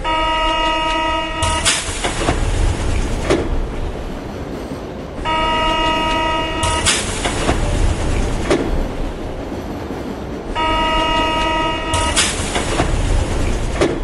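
A metro train in a station on an underground line: a continuous loud rumble of the train, interrupted three times by a brief tonal, horn-like signal at regular intervals.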